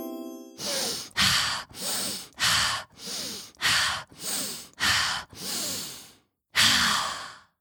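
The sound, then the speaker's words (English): Slow deep breathing exercise: five full breath cycles, each a breathy inhale and a longer sighing exhale in a steady rhythm, loud and close, with a brief pause before the last exhale. “Do it with me. Breathe 5 times.”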